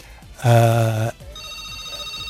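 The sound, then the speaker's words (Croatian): A telephone rings once on a call-in line: a loud, steady buzzing electronic tone lasting about half a second, then stopping and leaving a faint background hum. “Neko nas je pozvao.”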